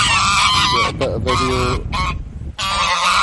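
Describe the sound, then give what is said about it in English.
Geese honking loudly and almost without pause, a dense chorus of many overlapping nasal calls that briefly thins before swelling again. “I'm going to get my phone out and just capture a few seconds of geese.”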